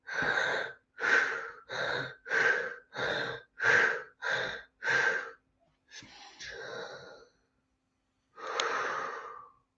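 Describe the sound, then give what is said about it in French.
Breathing exercise: eight quick, forceful mouth exhalations in an even rhythm, followed by a longer, softer drawn-out breath and, after a short pause, one more exhalation. “quatre expirations par la bouche, suivies d'une grande inspiration, expiration profonde par la bouche et ensuite par le nez. Je vous montre l'exemple. Par la bouche, on commence.”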